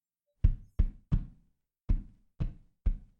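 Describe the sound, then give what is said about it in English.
Six dull knocks on a wall while listening for hollow spots, three quick ones followed by three more spaced evenly, each a short thud that dies away fast, alone in silence. “Tap the wall as you go along. Listen for hollow spots.”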